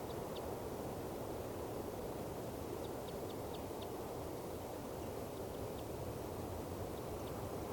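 Faint, short, high-pitched calls of a female bird on her nest. A few scattered chirps sit thinly over a heavy, constant low rumbling background.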